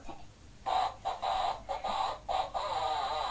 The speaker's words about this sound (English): And then press that one. What's that one? Birds. What do birds do? Sing.